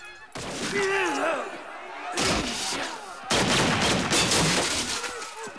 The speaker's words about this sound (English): Piper and Dodge fire off a few rounds in unison, aiming at Schiller and Santiago.